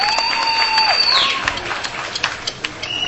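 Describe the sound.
Audience applause welcoming speakers at an anti-war movement event: a thin, scattered patter of clapping that thins into a few isolated, sharp hand claps toward the end.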